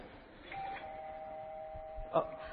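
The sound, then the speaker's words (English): A doorbell rings with a clear, sustained chime tone that carries on over a low background hum, and a second, brighter strike comes near the end. “That was the doorbell.”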